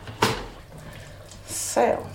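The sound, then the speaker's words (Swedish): Two brief wet plops as potato pieces drop into a cooking pot, the first soon after the start and the second near the end, over a faint background. “Så då potatisbitarna har också kommit i grytan här.”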